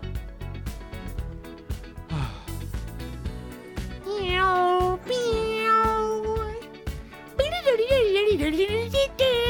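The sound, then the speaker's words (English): A cat meows a few times, each drawn-out, wavering call louder than the last, over a rhythmic background of steady ticking and low thumps. “Who let in a damn cat?”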